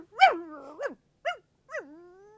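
A small dog barks four times in high, sharp yips, spaced unevenly. Some of the yips trail off into a thin, whining tone, and there is silence between the barks.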